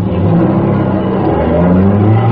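A car engine revs as the car drives off at night, a loud, steady roar that holds without a break across the whole clip.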